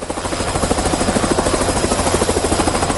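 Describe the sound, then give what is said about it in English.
A helicopter ferrying people from flood-prone areas around Bangula in Nsanje: loud, steady rotor thudding in rapid, even pulses over a buzzing engine drone, continuing throughout with no talk. “As you can hear in the background, that is the sound of a helicopter, which is ferrying people from the flood-prone areas, and one of them is Bangula here in Nsanje.”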